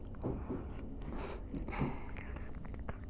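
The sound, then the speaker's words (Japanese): Soft, wet mouth sounds of biting and nibbling on someone's neck, close and quiet, with a few brief crisp clicks and smacks scattered throughout. “首も噛んであげるね。”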